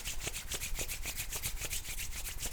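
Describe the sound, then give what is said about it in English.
Hands rubbing briskly together, a steady run of many quick, dry swishing strokes with an even rhythm and no talk. “You can take your hands together and rub them.”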